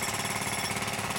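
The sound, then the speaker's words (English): A pneumatic jackhammer pounds with a rapid, even rattle, a dense and continuous mechanical hammering that holds steady throughout. “if I pull up with a pneumatic jackhammer”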